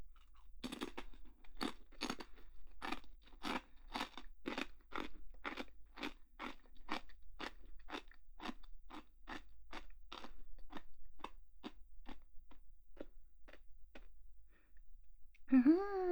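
Someone eats a crunchy snack, producing many faint, crisp crunches in a steady chewing rhythm that slows slightly toward the end, followed by a brief vocal sound.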